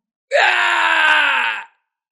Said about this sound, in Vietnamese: Tiếng kêu thê lương thảm thiết vang lên, vang vọng dưới bầu trời đêm.